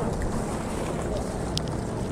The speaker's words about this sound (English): So it's actually windy, huh? Yeah. It's a windy day